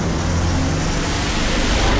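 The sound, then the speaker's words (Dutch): V8-engined cars driving past, a loud, dense roar of engine and road rush that fills the whole stretch as one continuous wash, with no separate passes standing out. “Hey, zo, dan hoor je even een paar V8'en voorbij komen.”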